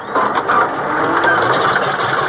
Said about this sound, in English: Well, what's wrong? Why doesn't it catch? They've done something with the engine.